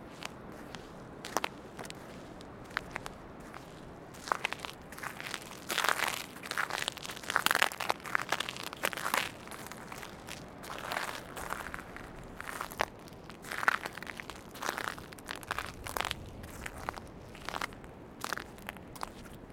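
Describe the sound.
Footsteps crunch and crackle on sand in a long, irregular series of many soft steps. A few of the steps land more sharply than the rest.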